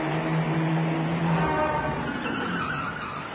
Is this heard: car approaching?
yes